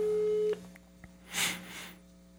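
A telephone call tone stops after about half a second as the call goes to voicemail, followed by a soft click and two brief, airy hissing bursts.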